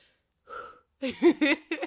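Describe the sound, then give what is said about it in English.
A person takes a deep breath: a short audible intake of air, then a few breathy, voiced puffs of sound. “Let me just take a deep breath”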